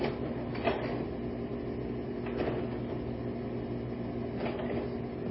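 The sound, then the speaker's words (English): A stuck slide projector hums steadily and low, with three faint mechanical clunks recurring about every two seconds. “And this is a stuck slide projector. She does this.”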